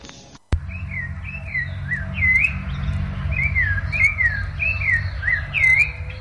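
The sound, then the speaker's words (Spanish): A thrush (zorzal) sings: many clear, whistled phrases repeating in quick succession, bright and fairly loud over a low background hum, after a single sharp click at the start. “Ahí está el zorzalito cantando.”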